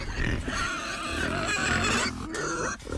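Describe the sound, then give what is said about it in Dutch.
Pigs grunt and oink in an outdoor field where seven pigs share a hectare. A fairly faint, continuous run of low, rough snorts and grunts goes on throughout. “Dit is wel mooi in de varkens, hè? Ze hoeven niks te doen, lekker liggen en een beetje zonnebaden.”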